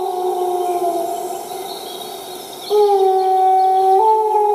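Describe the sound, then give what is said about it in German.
A wolf howls at mid distance in long, steady tones that hold level and then step upward, while European robins sing faintly at higher pitch behind it. “Wieder Rotkehlchen singend, Wolf aus mittlerer Distanz. Da ist ein Hahn drauf.”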